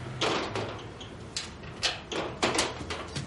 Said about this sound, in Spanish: Paloma cierra las contraventanas metálicas del cuarto.